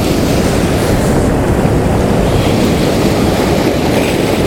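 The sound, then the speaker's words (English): Ocean wave washing up on a beach as the tide comes in, a loud, steady, low rushing roar of surf with no talking. “Oh my goodness, that wave came up to me.”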